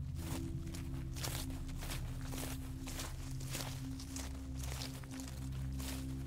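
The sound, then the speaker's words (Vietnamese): Footsteps crunching through dry leaves outdoors, a steady run of many rustling steps over a continuous low drone, with no voices. “con Bân nghe như có tiếng ai đang dẫm lên lá khô đi rào rào ở ngoài”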